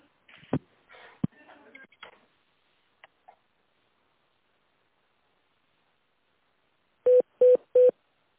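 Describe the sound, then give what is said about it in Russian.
A phone line during a call transfer gives a few soft clicks and rustles, then after a long silence three short, identical beeping tones. “Сейчас, минутка, я переключу вас на заместителя главного бухгалтера. Не кладите трубочку.”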